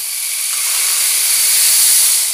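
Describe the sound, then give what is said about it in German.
Fat sizzles in a large frying pan set on a fire, a steady, loud, bright hiss that holds unbroken throughout. “stellten sie eine große Pfanne aufs Feuer, taten Fett hinein. Und als es so richtig brutzelte, gossen sie auch den Teig dazu.”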